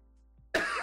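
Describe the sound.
Throat clearing and coughing from someone with something stuck in their throat: after near silence, a harsh guttural burst erupts and ends in a second short push.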